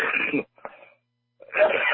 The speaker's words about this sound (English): Excuse me, I have to cough.